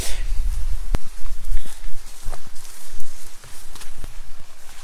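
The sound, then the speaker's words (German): Footsteps of people walking up a hiking trail on the Hörnle during an herb walk, with irregular soft steps under steady rustling, windy noise. “Aber vielleicht gehen wir jetzt einfach trotzdem weiter, wir wollen ja rauf. Okay, gut, weiter geht's.”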